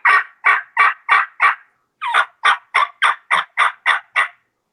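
Loud turkey yelps made on a mouth diaphragm call: thirteen sharp, even two-note calls in all, a run of five, a brief pause, then eight more at a steady rhythm, with no talking.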